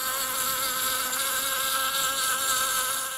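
Honeybee buzzing, a steady continuous drone that holds an even level throughout with no pauses and no voices.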